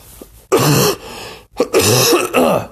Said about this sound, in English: my cough. Hopefully I can edit that out, possibly.